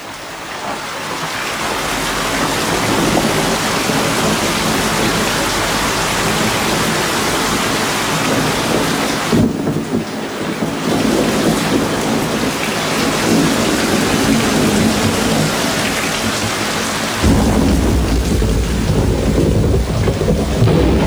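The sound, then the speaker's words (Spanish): Steady heavy rain falls with low rolling thunder rumbling beneath it, a loud, continuous wash of noise that briefly thins and then returns, with no voices. “Lluvia cae lentamente sobre mí.”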